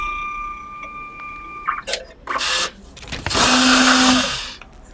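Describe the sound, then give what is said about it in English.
A short-story vending printer whirs as it dispenses a story on receipt paper: a few brief mechanical bursts, then a longer, loud, steady motorized buzz that fades at the end. “You simply press the button and it'll print out a story on receipt paper for you. And you can take it with you. And it prints out a story to whisk you away to another world. Exactly. What do we want to read today? 1 minute, 3 minutes, or Let's 5 minutes? Let's try 3 minutes. Okay. I hear it dispensing.”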